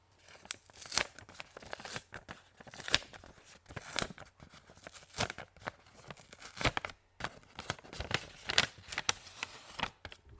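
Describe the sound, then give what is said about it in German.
A paper letter envelope is torn open in many short, crackly ripping bursts at an irregular pace, fairly faint throughout, with brief pauses between tugs. “Ich mach den Brief mal auf.”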